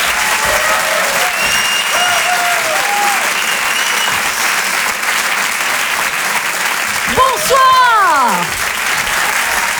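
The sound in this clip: Audience applause for a performer taking the stage at a comedy show: steady, dense clapping throughout, with a few whooping cheers rising near the end.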